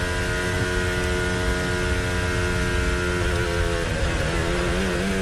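Formula 1 Mercedes engine harvesting energy while braking early into a corner during practice at the Azerbaijan Grand Prix street circuit: a loud, continuous droning whine with layered harmonics whose pitch wavers during the last couple of seconds.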